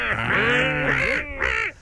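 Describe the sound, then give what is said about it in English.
A seagull calls with loud, raspy, harmonic squawks that bend up and down in pitch: one long drawn-out cry, then a shorter one after a brief pause. “The seagull. Oh, yeah, that was a bit of a gull, wasn't it?”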